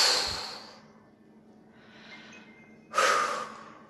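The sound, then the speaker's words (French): Deep breaths out during a relaxation breathing exercise: three airy, rushing exhalations. The first is strong, the second soft and hushed, and the last a sudden loud burst that tails off. “Et encore une fois, j'inspire, je pense à mes douleurs, mes tracas, je souffle.”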